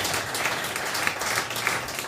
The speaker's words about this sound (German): Und vor allem müssen wir auch da nochmal einen Applaus rausjagen, ja, an die VfB-Frauen.